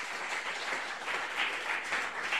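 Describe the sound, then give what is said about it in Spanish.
Applause from an audience at a Pentecostal church welcoming a women's choir: steady, dense clapping that holds at an even level for the whole stretch, with no voices over it. “Y los presentes las recibimos con fuertes aplausos para el Señor Jesús.”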